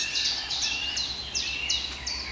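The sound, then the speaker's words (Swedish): Birdsong from woodland birds including great spotted woodpecker, blackcap, wood warbler and chaffinch: a series of bright, high chirping phrases repeating at a steady pace, each with a quick downward sweep. “Den stora hackspetsen kommer. Svartättan igen och grönsångarna är ju väldigt påtagliga här nu. Bofinken har vi ju fått igång.”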